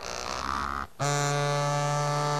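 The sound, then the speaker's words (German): Vibration motors buzz in a haptic vest fitted with small metal parts the size of toy cars, wired to a laptop. A steady tonal buzz cuts out briefly, then returns as a loud, even electric hum. “Unter der Weste kribbelt es auf der Haut. Ein Finger piekst scheinbar in die Seite oder ganze Ameisenstraßen von Bewegungsklustern laufen den Rücken hoch und runter. Also hier zum Beispiel ist die Vibration an”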